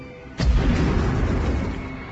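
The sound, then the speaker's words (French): A grenade explodes in a video game with a sudden loud burst, then a deep, rumbling roar that lingers and slowly fades. “on va lui foutre une grenade, et on va voir ce que ça donne.”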